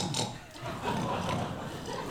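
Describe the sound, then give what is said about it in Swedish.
Audience members grunting in imitation of pigs, a rough, dense mass of many voices that carries on fairly evenly for a couple of seconds. “Ni ska förstå för lite grisiga bakgrundsljud i introt. Så säg efter mig.”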